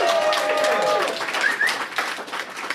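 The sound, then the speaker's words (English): A live audience at Camp FI Rocky Mountain Week 3 breaks into loud clapping mixed with whoops. The applause is dense and steady at first, then thins and tapers. “We are recording here in front of a live audience at Camp Fi Rocky Mountain Week 3. Let's hear it.”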